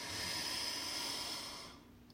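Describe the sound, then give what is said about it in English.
Deep inhale through the nose during a guided breathing exercise, a soft, breathy hiss that holds for under two seconds and then tails off. It is faint and heard alone, without talking. “take our tongue off the roof of our mouth, and breathe in through our nose.”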